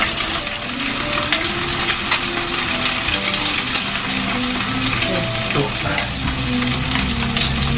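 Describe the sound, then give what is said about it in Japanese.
Steady, loud crackling sizzle as an egg is dropped into the middle of bacon in a frying pan heated until smoking, with small metallic clicks and ticks over the hiss. “で上がるぐらいフライパンを熱くしたところで卵をパンベーコンの真ん中あたりに落として”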